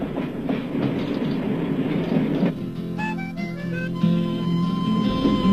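A train running on rails: an international passenger train nearing Basel, heard as a steady, loud rumble and rattle of wheels and carriages that continues throughout.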